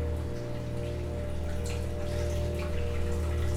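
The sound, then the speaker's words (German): Water running continuously in a toilet next door, a steady, even hiss with a low hum underneath, unbroken throughout. “Nebenan läuft die ganze Zeit das Wasser in der Toilette.”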